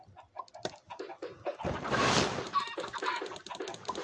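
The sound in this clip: Laying hens cluck in a busy, overlapping run of short calls, with a louder burst of noise in the middle, sustained throughout without any talk.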